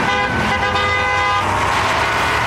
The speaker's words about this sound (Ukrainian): 15 травня президент Росії Володимир Путін подякував будівельникам мосту через Керченську протоку та сів за кермо КамАЗа. Позаду вишикувалася колона будівельної техніки. Автівки рушили.